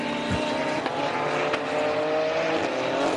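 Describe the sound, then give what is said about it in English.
Race car engine of an Audi on a racing circuit, a steady, loud roar with a sustained drone and no clear breaks. “Finn Zulauf pressing on in one of the Audis.”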